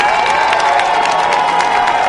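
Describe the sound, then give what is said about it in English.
Police colleagues cheer and clap as a wounded officer leaves the hospital. Dense, steady applause mixes with crowd cheering, loud and unbroken throughout. “His colleagues cheered and clapped as he left the hospital.”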